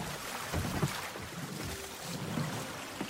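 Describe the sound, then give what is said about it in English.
A boat docking at the back of a ship in a video game, a steady rumbling wash of water and engine noise with a few soft bumps. “We're docking on the back here, like civilized gentlemen.”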